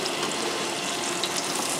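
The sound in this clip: Steady sizzling of green tomato slices frying in a pan for BLTs, a dense, even crackling hiss that holds at a constant loudness throughout, with no voices over it.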